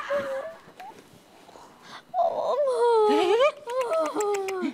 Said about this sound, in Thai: นิ่งนิ่งนิ่งนิ่งอย่าร้องอย่าร้องอย่าร้อง